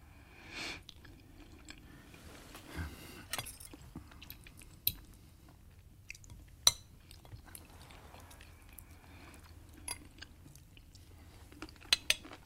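Soft, sparse sounds of a meal eaten with cutlery: faint chewing and occasional sharp clinks and taps on dishes, scattered across long quiet stretches.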